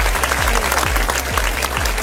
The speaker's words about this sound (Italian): Facciamo un applauso a DJ De Niro e anche a DJ Tiga, entrambi fantastici.